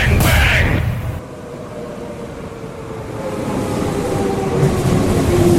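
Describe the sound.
A train sound effect in a jingle: continuous rumbling and rolling rail noise with a steady hiss, opening with a brighter burst of noise and holding a constant loudness throughout.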